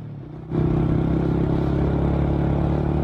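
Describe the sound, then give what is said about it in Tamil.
A motor vehicle pulling up under a tree outside an agricultural science centre gives a low engine rumble that swells abruptly after a brief quiet start. It then holds a steady, loud drone. “வண்டி அதோ அந்த மரத்தடியில் நிப்பாட்டுப்பா.”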